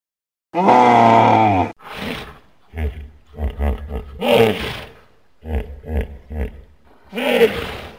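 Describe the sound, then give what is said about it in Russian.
Deep roar of a large-mouthed wild beast by a lake: one long, loud harmonic bellow, followed by a run of shorter grunting bursts with brief gaps between them. “Откуда-то совсем издалека доносится рев большеротого зверя.”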